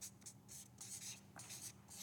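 Writing on a board: several short, hissing strokes in quick succession with brief pauses between them, faint and alone, over a low background hum.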